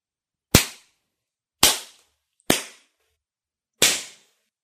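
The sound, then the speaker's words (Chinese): Hard slaps to one's own face: four loud, sharp smacks at uneven intervals, each with a quickly fading tail, with no voices between them. “狠狠地抽自己的嘴巴，没我允许，不准停，我要听声音，最响亮的声音。”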